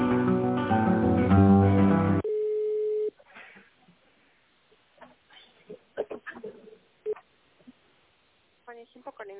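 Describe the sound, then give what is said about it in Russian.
A telephone ringback tone plays while a call to a company waits to connect: one steady, mid-pitched beep lasting about a second. It comes right after a short burst of loud music and is followed by faint clicks and scattered small noises. “Мы позвонили в компанию Химпэк. Ждите ответа.”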